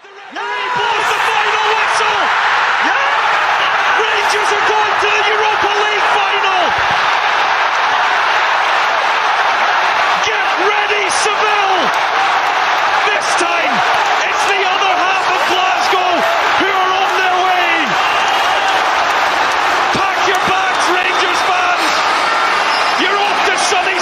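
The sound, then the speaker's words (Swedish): A football stadium crowd roars during Rangers against RB Leipzig in a Europa League semi-final, a loud, unbroken wall of cheering and chanting that never lets up, with a man talking over it throughout. “Även Leipzigs tränare Domenico Tedesco sa att han aldrig varit med om ett liknande publikljud.”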